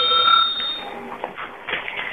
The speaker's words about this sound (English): When you hear the bell, turn the page.